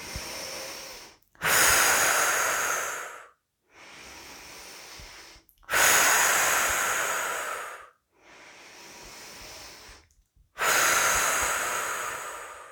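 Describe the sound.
Slow, deep breathing during a guided relaxation exercise: three louder, rushing breaths alternate with three softer, hushed ones in an even, unhurried rhythm. No talking.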